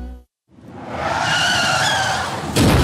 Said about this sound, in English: It only takes one moment on the road. You're driving like any other day, listening to your favorite song or podcast. Then, boom, an accident happens.